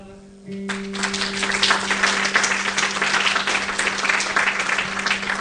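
Audience applause at a live concert by a band with a saxophonist, bursting in abruptly after a brief quieter moment and holding as a dense, steady roar of clapping.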